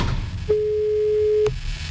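Telephone tone: a single steady, mid-pitched electronic beep lasting about one second, clear over a low background rumble.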